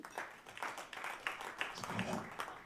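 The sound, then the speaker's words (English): Scattered clapping from a crowd at a live comedy show: a thin patter of hand claps with a few sharper slaps standing out, fairly faint, with voices mixed in. “Clap your hands if you got kids.”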